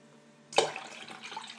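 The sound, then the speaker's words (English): Tap water runs into a pan for boiling rice, starting with a sudden splash and then a soft, steady, faint flow. “That's the water we need to boil the rice.”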